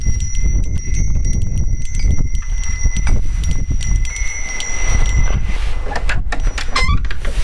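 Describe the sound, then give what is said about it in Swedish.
Wind chimes ring in light wind outside a terraced house, their high, sustained metallic tones hanging over a steady rush of wind, with a few brighter tinkling strikes near the end. “Det är lite vindigt, en pumpa på trappan, vindklockor.”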